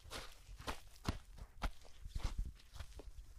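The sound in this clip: Several footsteps walk into a near-natural display garden still under construction, steady and moderately loud, with no talking.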